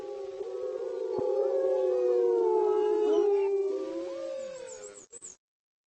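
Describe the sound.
Wolves howl together in several overlapping, sustained, tonal calls with slowly gliding pitch. The chorus is loud and steady for about five seconds, then cuts off after a couple of short final bursts.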